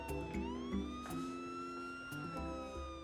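Ambulance siren near a health centre, rising in one slow, continuous upward sweep. It is fairly faint and sits over a steady musical backing of shifting low tones.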